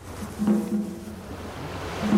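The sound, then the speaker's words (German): Wind-driven ocean waves on the Pacific off a rocky, rugged coastline of Japan's Ise Peninsula give a continuous, soft rushing wash that swells gently and fades, faint and without clear breaks. “Draußen auf dem Pazifik treibt der Wind die Wellenberge immer höher.”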